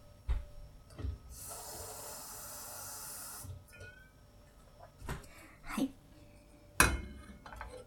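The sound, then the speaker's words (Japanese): Water pours into a frying pan in a bright, steady hiss lasting about two seconds, set among a few scattered knocks and clatters of kitchenware. “まずフライパンがありますけど、お水を入れますね。”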